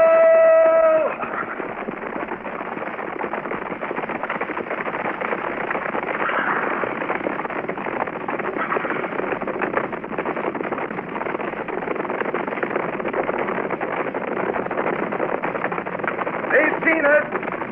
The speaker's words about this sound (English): Let's ride out. Company! At the gallop! At the gallop! Ho!